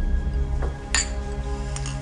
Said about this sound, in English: How about a toast? To new friends.